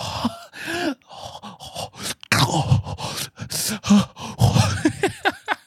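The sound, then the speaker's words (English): A voice imitates an old man's heavy breathing with raspy, groaning breaths and grunts in an uneven rhythm, loud and alone. “she made like an old man breathing sound. It was like,”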